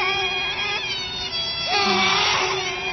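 A small child cries in drawn-out, wavering wails that run through the whole stretch at a steady, fairly loud level, with a brief rising catch partway through.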